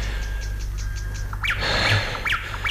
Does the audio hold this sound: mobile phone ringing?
no